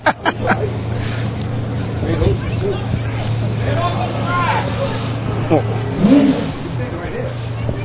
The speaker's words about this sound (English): we got Port Washington on the line, taking their revs. And here they come down the track.